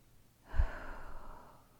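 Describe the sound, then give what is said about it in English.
A slow, deep breath drawn in during a guided breathing exercise: one long, soft, airy inhale that swells quickly and then holds steady before easing off, with no talking. “Now, breathe with me. In 2, 3.”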